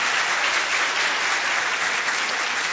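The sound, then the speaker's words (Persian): Audience applause at a lecture, given in honour of the speaker. Dense, sustained clapping holds at a constant strong level for the whole stretch. “به افتخارشون یه دست که زیباترین دست امروز بوده باشه.”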